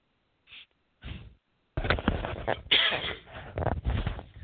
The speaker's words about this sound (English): Excuse me, a little something in my throat here.